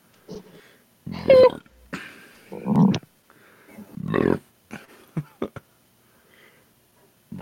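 A few loud, low, guttural burps break out in separate bursts, with short quieter throaty noises between them.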